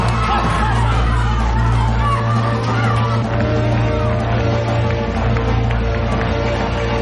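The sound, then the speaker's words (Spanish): A crowd roars and cheers as a children's football team runs onto the pitch, a loud, continuous wash of shouting and hubbub from the spectators. “La selección infantil sale al campo aclamada por todo el público.”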